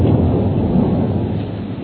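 Thunderstorm sound effect from a King Lear radio play: a steady, loud wash of rumbling thunder and rain noise that fades slightly toward the end, with no voices.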